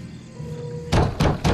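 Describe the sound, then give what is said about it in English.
Someone bangs on a front door: three heavy, loud thuds in quick succession follow a quiet stretch of low hum. “Finding the line dead, she shakes her head at David, who walks out and bangs on the front door to number 3.”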